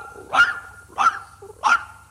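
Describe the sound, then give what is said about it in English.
A dog barks three times at a steady, even pace. Each bark is a short, mid-pitched yelp over a faint low hum. “Every time you said a number, the dog barked it.”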